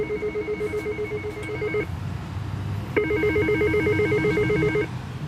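An intercom call rings after a door code is entered: two long bursts of warbling electronic ringing separated by a short pause, with no voices.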